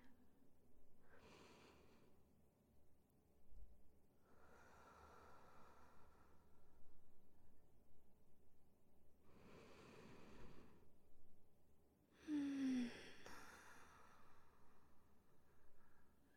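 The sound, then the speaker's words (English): Slow, calm breathing from one person guiding a relaxation exercise: a few long, soft breaths spaced several seconds apart, each a gentle airy hiss with quiet stretches between, faint and unhurried. “Listen to my breathing. Let it ease your mind. Let it spread that warm tingle throughout your body.”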